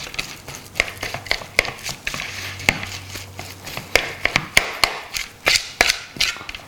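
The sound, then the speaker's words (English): Thanksgiving leftover stuffing being mashed and mixed: many irregular dull taps and soft thuds in an uneven rhythm, fairly loud, with no talk. “All right, so now this just gets mashed. The stuffing. We're just trying to mix all of this really nicely.”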